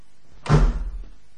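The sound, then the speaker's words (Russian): A door is jerked shut with a single loud slam, a short heavy thud that quickly fades. “Генерал рывком захлопнул за собой дверь.”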